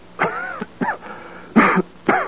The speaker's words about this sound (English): Oh, that cough, dear.